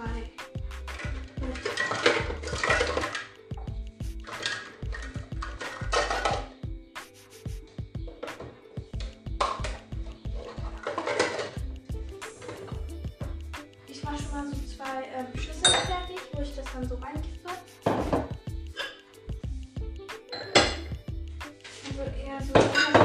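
Metallic clinks and scrapes of pots, pans and cutlery in a kitchen while food cooks in a pot, with many irregular knocks and rattles running steadily throughout.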